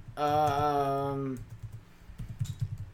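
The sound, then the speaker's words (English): Typing on a keyboard, heard as a run of many soft, irregular clicks and taps after a steady buzzing tone at the start. “Oops, it's hard to type.”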